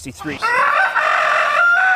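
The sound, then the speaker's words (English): A rooster crowing on a farm: after a few short throaty sounds, one long, loud, sustained crow holds a steady pitch to the end. “This rooster right here, this is Chanticleer. He is the offending fowl that the city doesn't like. That's as loud as he gets right there.”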